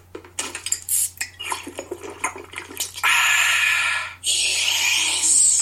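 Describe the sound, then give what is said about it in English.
A can of Coca-Cola is opened and poured: a few clinks and clatters come first, then a loud, sustained fizzing hiss of pouring. The hiss breaks off briefly and then resumes. “That wasn't sound effects. That was a Coke.”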